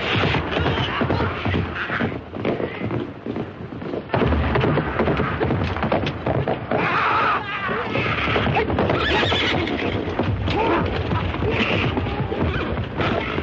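Horses neigh and hooves clop through a chaotic battle scene in a 1954 samurai action film. Shrill whinnies rise above dense, continuous hoofbeats, scuffling and crashes, all loud and busy for the full length.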